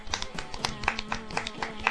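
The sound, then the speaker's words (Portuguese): Faint, rapid hand clapping congratulates the Brazilian national volleyball team on winning the world championship. Many quick, sharp claps run evenly through the short burst. “Então, aqui vai os nossos parabéns, palmas por gentileza.”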